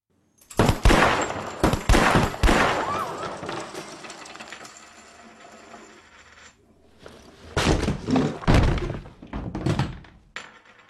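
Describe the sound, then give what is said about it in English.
Loud gunfire from shooters in a shootout comes in two rapid volleys of shots, separated by a quieter stretch of lingering rumble. “Shooters to the ready. Prepare to fire in three, two, one.”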